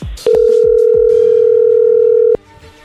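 Telephone tone on a line while a call is dialed: one loud, steady mid-pitched tone held for about two seconds, with brief clicks just before and after it.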